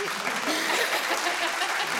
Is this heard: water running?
no